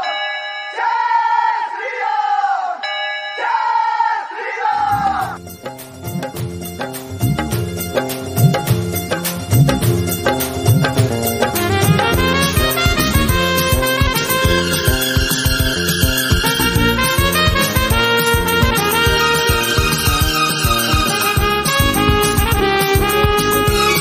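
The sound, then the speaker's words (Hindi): Devotees chant the slogan Jai Shri Ram. A few loud, drawn-out sung shouts separated by short pauses lead into dense, rhythmic devotional music that continues to the end. “इसलिए भक्तों, एक ही नारा, एक ही नाम, जय श्री राम।”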